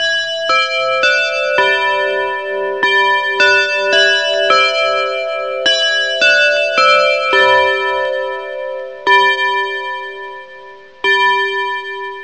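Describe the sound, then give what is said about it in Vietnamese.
An alarm clock rings at exactly midnight, sending out a loud melodic chime of many bright, bell-like notes struck in a steady repeating pattern. Each note rings on and overlaps the next, with no voices. “Một hồi chuông đồng hồ báo thức vang lên, đã là đúng 12 giờ đêm.”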